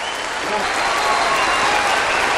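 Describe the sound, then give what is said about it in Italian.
Audience applause at the Royal Albert Hall concert hall, a dense, steady wash of many hands clapping that holds at an even, fairly loud level throughout. “Un applauso dalla Royal Albert Hall, caro Totò.”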